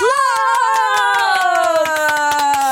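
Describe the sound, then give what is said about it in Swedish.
Applause with rhythmic hand claps, joined by a sustained voice-like tone that slowly falls in pitch over a few seconds. “applåd!”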